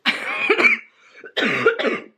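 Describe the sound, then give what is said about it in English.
A person with a lingering cough coughs in two short bursts of a few harsh, raspy coughs each, separated by a brief near-quiet gap, with no speech. “I'm sorry, I still have this cough and it's not going nowhere”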